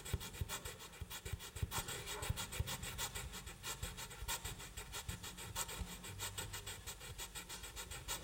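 Hands rubbing briskly together make a continuous dry rasping swish with rapid, steady back-and-forth strokes. It is fairly quiet and heard alone, without voices.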